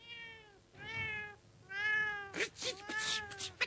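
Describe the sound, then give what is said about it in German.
A black cat with two white paws meows in a courtyard outside a carpentry workshop. Three drawn-out, clearly pitched meows are followed by a rougher, noisier yowl, all fairly loud and with no talking. “Genauer, eine schwarze Katze mit zwei weißen Pfoten. Diese Katze saß im Hof vor der Schreinerwerkstatt”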